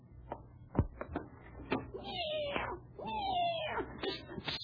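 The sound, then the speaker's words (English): A house cat meowing and yowling, a few drawn-out cries with wavering, sliding pitch over a low background rumble. “Rochester, you feed the cat? Oh, yes, yeah, boss. She just finished a plate of turkey. And what's she mad about?”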